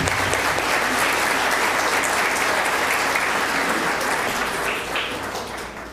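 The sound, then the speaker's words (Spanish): Applause from an audience in a church at the welcome of a service with a choir: steady, dense, loud clapping that holds for several seconds and eases slightly toward the end. “Un aplauso para todos.”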